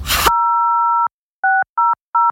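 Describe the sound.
Telephone keypad tones dialing a Norwegian roadside assistance number: a short noise burst, then one long dual-pitched beep followed by three short, evenly spaced beeps.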